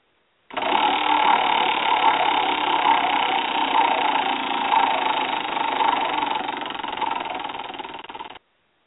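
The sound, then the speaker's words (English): A wheel spins for a talk show's topic segment, making a steady, rapid mechanical whirring clatter for about eight seconds. It eases slightly in loudness near the end, then stops abruptly. “spin the wheel”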